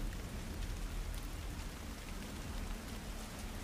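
Steady rain makes a continuous, even hiss of drops with no breaks or separate events, quiet throughout and with no voices.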